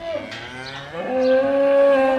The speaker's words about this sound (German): Jetzt ist der Eros an der Reihe zum Abladen aus dem Viehtransport-Anhänger. Über eine Rampe, runter in die Koppe, wo schon 5-6 andere Stiere halbwegs ruhig nebenan stehen